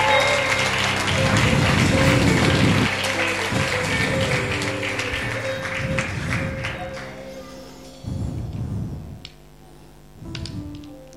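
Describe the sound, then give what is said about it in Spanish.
Congregation applause in a church after a sermon: dense clapping is loud at first, then thins and fades, with a few shorter bursts of claps returning later over a steady, low tonal background. “¿Cuántos le dan un fuerte aplauso a Dios?”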